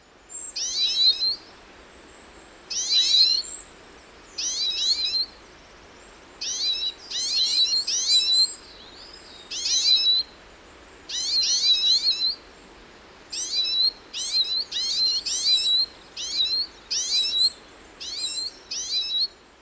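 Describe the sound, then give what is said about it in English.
A small group of siskins calls while mobbing a female sparrowhawk at her nest. Many short, high, twittering bursts repeat in a steady, uneven rhythm, loud and clear with no other sounds. “in this old recording, it's given by a small group of siskin mobbing a female sparrowhawk at her nest.”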